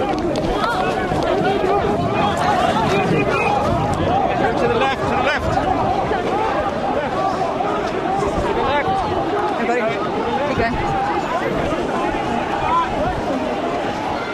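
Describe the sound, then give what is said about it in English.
A crowd flees as police charge protesters: rushing footsteps and a dense babble of voices keep up a loud, unbroken commotion throughout. “Police charging, arresting, everyone who could ran.”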